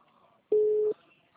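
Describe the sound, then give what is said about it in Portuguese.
A telephone line tone sounds after a dropped call: a single steady, mid-pitched beep lasting under half a second. It is loud against a faint, near-silent background. “perdão, cortou a ligação.”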